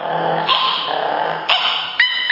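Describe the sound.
Dog barking, a few sharp barks rising out of a steady, tense, growling sound, loud and with no talk over them.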